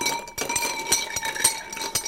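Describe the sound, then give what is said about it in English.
A spoon stirs a drink with a drop of Angostura bitters in a glass, tapping out a quick run of bright, thin clinks at an uneven rhythm over a soft background hiss. “There's a small amount, but I'm adding a drop. Just a drop. It's so minuscule, you won't notice it. So we're going to give that a stir.”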